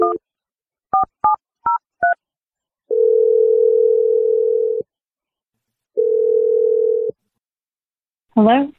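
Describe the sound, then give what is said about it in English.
A phone number is dialed with five short touch-tone beeps, followed by two long, steady tones separated by a pause, and then a brief voice at the end. “But I'm going to dial Stephanie's number, and let's see what she has to say.”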